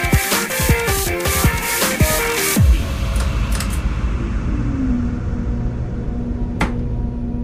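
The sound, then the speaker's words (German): A train passes a platform in a train simulator video game: a loud, steady, low rumbling roar, with a tone that slides downward partway through. “Vorsicht an der Bahnsteinkante, denn es fahren vorbeifahrende Züge vorbei.”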